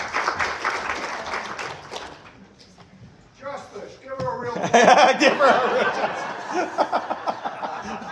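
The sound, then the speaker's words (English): Audience applause for helpers at a morning Valentine's Day event: clapping at first that fades, then swells again with laughter, cheering and chatter from the crowd. “Big round of applause for my helpers this morning.”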